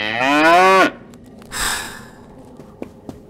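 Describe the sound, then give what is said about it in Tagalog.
A large cow gives one loud, sustained moo that cuts off sharply, followed by a breathy snort-like exhale and a couple of faint clicks, with no talk over it. “At naulit ang pagungal. Sa pagkakataong ito, mas malapit at mas malinaw na ang tunog at nakita niya sa kadiliman ang isang dambuhalang likaw na bakang papalapit sa kanya.”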